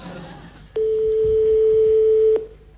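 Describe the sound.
A telephone ringing on the line after a number is dialed: one long, steady, mid-pitched ringback tone that starts abruptly, holds for about a second and a half, then cuts off, over faint background noise.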